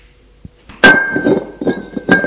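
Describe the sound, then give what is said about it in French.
A glass beer bottle is set down on the floor with a sharp clunk, followed by a clear glassy ring that lingers under a few softer knocks and rustles. “Il pose la bouteille à terre.”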